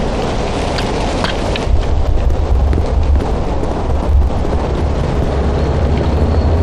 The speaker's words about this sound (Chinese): 第一二炮群正在向城南偏西和城南中部发起猛烈炮击，第三炮群目标城东偏北方向，现正在对城墙中部和碉堡群进行集中摧毁。